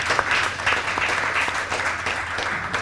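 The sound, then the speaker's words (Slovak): An audience at a café talk event applauds, a lively crowd of hands clapping at a fairly even level for a few seconds over a low steady hum. “ale takisto zatliskajte si, pretože takisto ste súčasťou nášho dnešného stretnutia”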